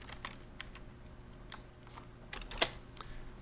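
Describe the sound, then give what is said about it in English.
Typing on a computer keyboard to enter a word with a text tool in a graphics program: faint, irregular key clicks spaced out over a few seconds, with one sharper, louder click near the end. “we're going to take the text tool, and we're going to type, shield.”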